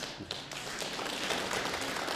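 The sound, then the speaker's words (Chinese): Faint applause from a comedy show audience in Beijing greeting a performer, a soft scattered patter of hands that stays low and fairly even. “谢谢大家，想不到还真有人鼓掌啊，”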